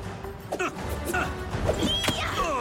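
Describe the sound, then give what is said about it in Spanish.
A blow landing in an animated fantasy fight: a sharp crashing thwack amid busy, dense effects and music, with one especially strong hit near the end. “Golpea a Plumaman.”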